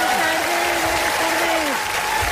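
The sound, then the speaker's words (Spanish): An audience applauds a guest on a show, a loud and continuous wave of clapping with voices cheering above it. “¡Un aplauso para ella!”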